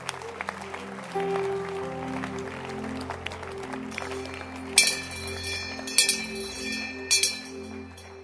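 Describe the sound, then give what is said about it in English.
Congregation clapping in church over sustained low musical tones, the hand claps forming a continuous patter punctuated by a few bright metallic jingling accents. “I'm still looking through the church. Keep clapping.”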